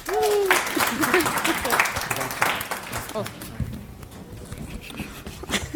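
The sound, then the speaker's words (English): Audience applause at a talk at the FOSDEM open-source conference: dense, steady clapping that fills the whole stretch, with voices over it near the start. “So give a hand for them.”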